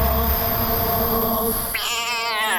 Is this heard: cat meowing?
yes